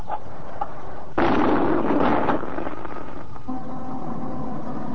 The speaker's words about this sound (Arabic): هنا الاسكندرية وانطلق مدفع الافطار.